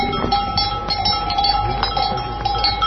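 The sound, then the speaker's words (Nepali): Clanking bells of a grazing herd of sheep, goats and yak-cattle on high pasture in Gatlang, Nepal: many irregular, overlapping metallic clinks over a steady low background rumble. “भेडा च्याङ्ग्राको बथान एकातिर, अर्कोतिर चौरी गाई चरिरहेका छन्।”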